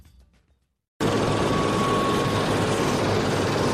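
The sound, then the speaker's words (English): Helicopter taking off from an airport on the west coast of Denmark's Jutland peninsula: after about a second of near silence, a loud, steady roar of engine and rotor noise begins abruptly and continues unbroken to the end. “That's the sound of a helicopter taking off from Esbjerg Airport on Danish Jutland Peninsula's west coast.”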